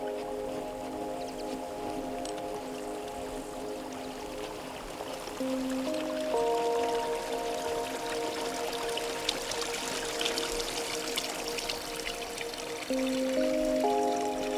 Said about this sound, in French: serez-vous sensible à ce doux clapotis ?